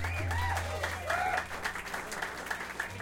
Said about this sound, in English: And we've got Jeff Scott on guitar tonight. Give it up for Jeff.